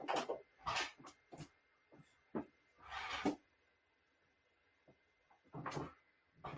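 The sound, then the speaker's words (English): Several faint wooden thuds and rattles of a door being closed in the room, coming in short separate bursts with quiet gaps between them. “please close that door.”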